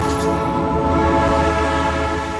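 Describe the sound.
A historic train at Toral de los Vados rumbles steadily, with a loud, sustained tonal drone running unbroken through the whole stretch.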